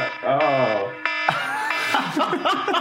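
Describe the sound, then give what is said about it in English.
An obnoxious alarm sound goes off: harsh, buzzy harmonic tones waver at first, hold one steady pitch briefly, then turn into a loud, dense, raspy blare that runs to the end, with voices mixing in. “My really obnoxious alarm at the end, because if I don't get to play it, I'll be very upset.”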